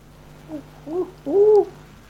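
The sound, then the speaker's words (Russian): Owl hooting: three low, hollow hoots, each longer than the last, the final one a drawn-out, steady note over a faint hum. “О, это сова была. Это сова, да-да-да.”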